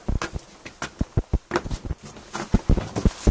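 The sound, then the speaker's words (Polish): Careful footsteps climb littered stairs to a landing in a derelict building strewn with broken bottles and debris. Many uneven thuds and scuffs come in an irregular rhythm, some louder than others, with brief pauses between steps. “Teraz ostrożnie, wchodzimy po schodach na półpiętro.”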